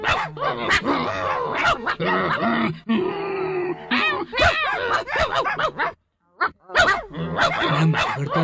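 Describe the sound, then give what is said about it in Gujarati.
Two dogs quarrel face to face on a bridge, trading a rapid, continuous string of harsh barks, grunts and growls that fills nearly the whole stretch, broken by one brief silent gap near the end. “એકબીજાને ઘૂરકીને સામ સામે ભસવા લાગ્યા, ભસવા લાગ્યા, અટકે જ નહીં.”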